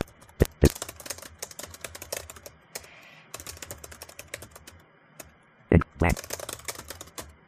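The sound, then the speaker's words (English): Computer keyboard typing, with quick clattering key clicks in uneven bursts, a few heavier strokes and short pauses between runs of keystrokes. “It's off of a list, but I'm just going to type in something.”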